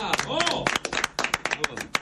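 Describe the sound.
Audience applause greeting a guest, with a voice speaking over it at the start, and claps continuing in a busy, irregular patter.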